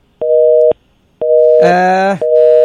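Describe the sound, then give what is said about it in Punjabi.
A telephone busy tone sounds after a dropped call: loud, steady low beeps with short gaps between them, briefly overlaid by a harsher buzzing tone partway through. “Call drop ਹੋ ਗਈ, ਦੁਬਾਰੇ ਕਾਲ ਕਰ ਸਕਦੇ ਹੋ”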